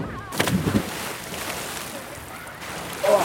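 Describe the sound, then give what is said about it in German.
People splash in water at a bathing spot, heard as a steady wash of water with a few louder splashy bursts, and voices now and then. “Außer ein bisschen zuzuhören, wie die Menschen hier im Hintergrund im Wasser planschen.”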